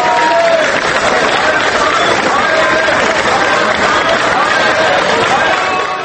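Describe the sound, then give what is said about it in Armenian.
Protesters gathered outside parliament applaud arriving opposition deputies who oppose a bill. The result is dense, steady crowd noise of clapping mixed with voices and cheering that holds loud throughout. “Նիստից առաջ հավաքված ցուցարարները նիստերի դահլիճ ժամանող օրինագծին դեմ հանդես եկած ժառանգություն և հայ հեղափոխական դաշնակցություն ընդդիմադիր խմբակցությունների պատգամավորներին դիմավորեցին ծափողություններով։”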